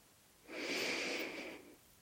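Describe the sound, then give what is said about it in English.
A single deep breath drawn in while standing in the sunshine, a soft, airy inhalation lasting just over a second, heard alone with no talk. “Shall we take a deep breath in?”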